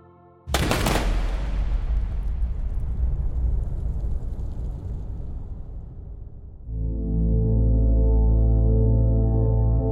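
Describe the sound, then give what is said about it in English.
A firing squad of six soldiers fires a rifle volley at an execution: one sharp, loud blast, followed by a long, fading roar of noise. A low, steady drone then comes in and holds to the end. “"Prepare," shouted the officer, and 6 Japanese soldiers raised their rifles. They were 20 yards away. "Fire."”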